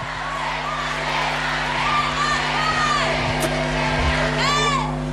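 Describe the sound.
A crowd of fans at a women's football Champions League title celebration shouts and calls for a player to stay. The loud, continuous roar carries a few high whoops that rise above it.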